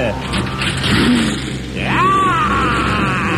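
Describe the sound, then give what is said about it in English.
Four-wheel drive engine starting and revving on an icy day, a constant mid-pitched rumble that swells partway through as the revs climb in a rising whine, then holds at a higher, louder drone. “I climbed in my four-wheel drive, and I fired that thing up, and it sprang to life.”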